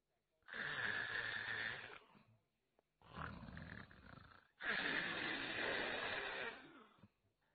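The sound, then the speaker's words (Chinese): A voice imitates heavy snoring in three long, rasping breaths, each one loud and harsh, with short pauses between them. “程爷这觉来得快，脑袋一挨枕头这就打呼噜。”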